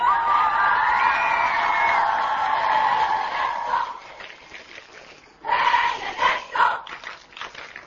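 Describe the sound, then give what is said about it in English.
Thousands of people cheer and whoop as Pope Benedict arrives in John Paul II's hometown. A loud swell of shouting voices lasts about four seconds and drops to a lull, then a second burst of cheering rises and tapers off. “Benedict received a very warm welcome. Thousands waved white and yellow Vatican flags and cheered.”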